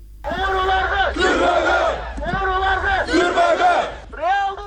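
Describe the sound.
Protesters at an anti-corruption rally on Ala-Too Square in Bishkek chant in loud, rhythmic, repeated phrases from a large crowd, with brief gaps between the shouted lines.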